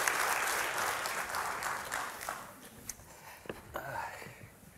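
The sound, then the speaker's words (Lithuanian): Audience applause welcoming a guest onto a show: loud, dense clapping at the start that gradually thins and fades, with a few sharp, isolated claps standing out near the end. “Pasitikime plojimais.”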